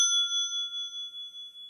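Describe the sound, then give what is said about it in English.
A single bell ding rings out alone, a bright sustained high tone with a steady wavering shimmer that slowly fades over under two seconds. “I feel you're overusing the bell tonight.”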